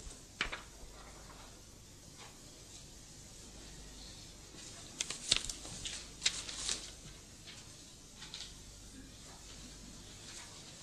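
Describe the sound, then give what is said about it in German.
Rustle and soft clicks of a transparency sheet being laid onto an overhead projector, a few faint crinkling bursts over a low steady hiss. “Ich lege euch hier eine Folie auf.”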